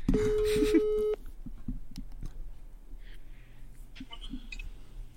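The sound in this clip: Ringing tone of an outgoing telephone call: one steady, fairly loud electronic tone lasting about a second, then quieter line noise with scattered clicks and a few faint beeps.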